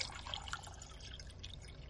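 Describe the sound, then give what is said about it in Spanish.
Water being poured into a glass in a bedroom at night: a steady, thin trickle and splash, fairly faint against a low background hiss. “Mira a un lado, se sirve un vaso de agua.”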